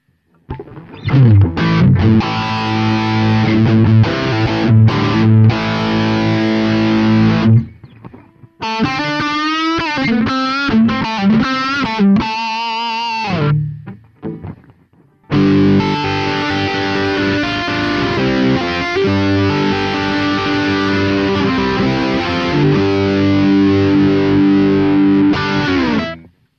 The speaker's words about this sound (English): If we take the gain up a little bit further, up to around number 8, and hear what that sounds like, you can hear that it's starting to get a little bit too mushy.